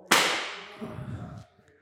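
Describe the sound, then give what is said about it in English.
A single sharp gunshot crack rings out, with a bright, sudden attack that fades into a low, rumbling tail. “Why are you shooting fucking guns in here, man? Go outside and shoot your fucking gun.”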